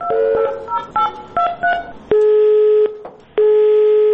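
Telephone keypad tones as a number is dialed, several quick beeps of varying pitch, then long steady tones split by a short gap as a call to an official contact number fails to connect. The sound is loud and clear.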